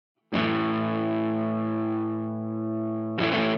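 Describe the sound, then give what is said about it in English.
A Silvertone Paul Stanley Sovereign Pro electric guitar rings out one distorted chord with heavy reverb, sustaining for about three seconds before a second strum cuts in loudly. “Hey, you want to hear something cool? Yeah, what? What do you got? Hit that. Ooh. That's some reverb.”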